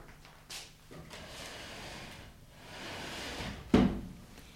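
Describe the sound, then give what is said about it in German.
A chair moved across the floor: faint scraping and shuffling builds over a few seconds and ends in a sharper knock as it is set down. “rücke den Stuhl hierher”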